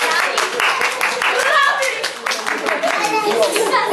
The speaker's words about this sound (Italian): Applauso